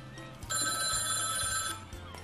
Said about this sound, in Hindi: और फिर मेरा फोन बज रहा है,